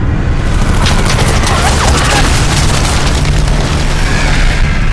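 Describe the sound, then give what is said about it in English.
Bomb blasts and machine-gun fire erupt as Helldiver dive bombers attack a warship, forming a loud, dense, continuous roar of booming detonations and crackling bursts with no pause throughout. “Another direct bomb strike next to the smokestacks blasts two machine guns over the side.”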